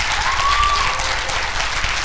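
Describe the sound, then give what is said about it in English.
Audience applause at a certificate ceremony: dense, steady clapping from many hands that holds at an even level throughout. “Will you please give them a giant hand clap”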